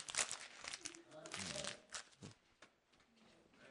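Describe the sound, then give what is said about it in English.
Paper crinkling and crumpling as a pastor scrunches up the typed Sunday order of service during a sermon: dense, crackly rustling bursts over a few seconds, with a voice briefly underneath. “I'll throw away this schedule, this order of service that I type up every Sunday.”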